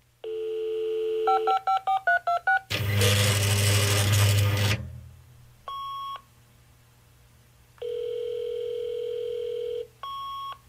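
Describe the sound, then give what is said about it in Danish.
A fax machine modem dialing and connecting: a steady tone, then a quick run of dialing beeps, then a loud, harsh burst of modem noise, followed by spaced electronic tones and a long, steady tone. “det var en helt særlig lyd, når faxen går på. Modem.”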